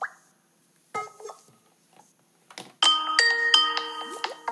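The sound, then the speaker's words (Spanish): A video call rings while calling someone back, opening with a few short, scattered blips and then settling into loud, bright, melodic ringing with stepped chime-like tones. “Vamos a llamarlo para atrás a ver si nos contesta Jorgito.”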